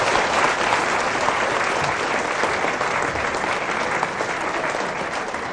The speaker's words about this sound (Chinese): 大家给点掌声。